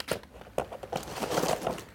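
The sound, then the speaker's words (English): Adhesive tape being handled, with faint crinkly, tearing crackles in a few sharp bursts over two seconds. “I'm having trouble with the tape.”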